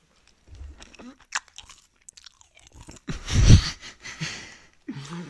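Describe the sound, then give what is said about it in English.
Skittles candy is crunched and chewed up close: a scatter of irregular crisp bites and chews, one louder crunching burst in the middle, then softer chewing. “I want ASMR, so I had to crunch. You're right. Hold on. Before we end the ASMR segment. Okay. Let me give them some of mine, my Skittles.”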